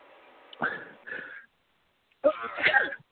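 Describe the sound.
A person sneezes: a few harsh, breathy bursts separated by short pauses, the loudest and longest coming last.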